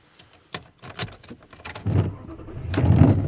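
Car sounds during a drive home: a few sharp clicks and knocks, then a low engine rumble that builds and grows louder toward the end, with no talking.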